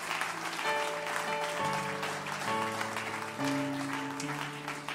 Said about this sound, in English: put your hands together and give a good Bethlehem Church welcome to Brother and Sister Adams from Krakow, Poland.